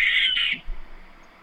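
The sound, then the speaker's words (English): Barn owl call: a single harsh, raspy screech lasting about half a second, loud and hissing, followed by a quiet low-level tail with nothing else. “We just have dueling barn owls.”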